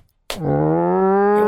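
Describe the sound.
A person imitates a cow mooing with a single long, low, drawn-out vocal tone that holds steady and rises slightly in pitch, starting abruptly after a brief silence.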